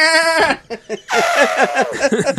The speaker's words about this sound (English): you didn't use a clip of an animal getting Fultoned. Because that's some of the funniest shit in that game when you hear a goat like,